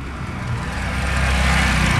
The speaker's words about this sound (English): There's a bus arriving, and even more people are getting off to join the queue.